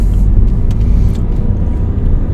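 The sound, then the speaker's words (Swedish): A car drives out into the forest, its engine and tires making a steady, loud, low rumble throughout with no talk over it. “Då ska vi köra ut i skogen här då.”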